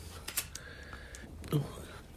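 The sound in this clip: A lighter being flicked gives a few quick, sharp metallic clicks, quiet and brief, spread across a couple of seconds.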